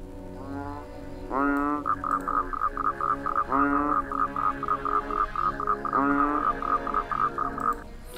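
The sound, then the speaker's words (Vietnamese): Frogs croaking in the dark after rain, a steady rapid pulsing chorus with a few louder, upward-sweeping calls recurring through it at moderate volume. “Tiếng ếch nhái kêu râm ran xung quanh sau trận mưa.”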